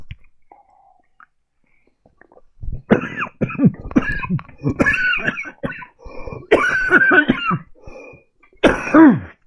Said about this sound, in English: Oh, excuse me. Oh, went down the wrong pipe.